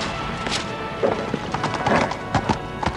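Horse hooves clatter at a gallop through a city in a quick, uneven run of sharp, loud strikes over a steady background rumble.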